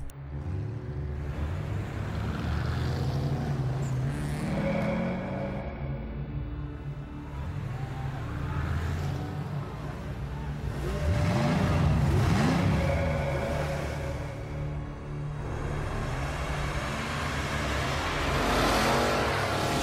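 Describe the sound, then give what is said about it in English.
A car engine running after the key is turned in the ignition, droning steadily and revving up in pitch a couple of times, with the engine swelling louder during the revs. “Let's put the key in the ignition.”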